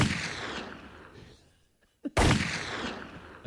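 A shotgun fires in a video game: one loud, sharp blast breaks a near-silent gap and leaves a long, noisy tail. A smaller pop comes just before it.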